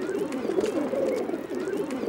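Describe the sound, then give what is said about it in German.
Pigeons coo around a dirty school in a soft, low, throaty warble that rolls on without pause. The sound stays fairly faint throughout. “Überall sind Tauben und alles ist voller... Kacke!”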